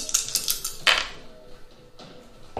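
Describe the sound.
Dice are rolled for damage in a tabletop role-playing game. A quick flurry of light clattering clicks is followed by a couple of separate sharp clicks.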